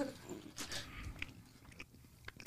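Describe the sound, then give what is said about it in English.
Soft, moist chewing of Twizzlers licorice candy, with a few quiet bites and squelching mastication sounds at low volume. “This, the licorice one, the Twizzlers ones are not my favorite.”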